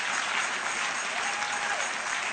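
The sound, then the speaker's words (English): A church audience claps hands continuously during a prayer, a dense, even roar of many hands that holds at a constant loud level throughout. “Clap your hands for 1 minute prayer.”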